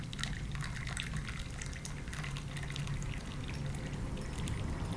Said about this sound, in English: Describe every single different water stream.